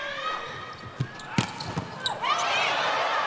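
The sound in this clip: A volleyball bounced on the court before a serve in a Japan team match: a few dull, thudding bounces with a voice talking, followed by a steady swell of noise.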